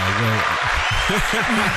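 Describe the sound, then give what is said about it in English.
Crowd applause and cheering go on as a continuous noisy wash beneath a person talking for the entire short stretch. “the crowd is going wild for Kaylee. This is awesome.”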